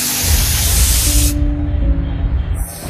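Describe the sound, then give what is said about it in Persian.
A spaceship airlock depressurizing lets out a loud, broad rushing hiss. The bright upper part cuts off abruptly partway through, leaving a low rumble and faint steady tones before a final brief hiss. “آغاز فشار زدایی.”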